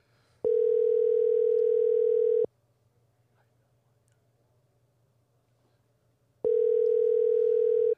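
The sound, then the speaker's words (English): A telephone tone sounds while a call is being dialed: two steady, unbroken tones of about two seconds each, separated by a long silence, clear and alone. “No, Siri can't dial and talk.”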